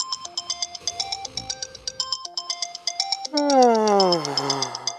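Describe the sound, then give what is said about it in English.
A phone alarm rings with a repeating, high, beeping melody of bright electronic tones that stays steady and loud throughout. A voice sounds over it near the end. “You wake up to your alarm ringing, you turn it off, and bring your phone back to bed with you.”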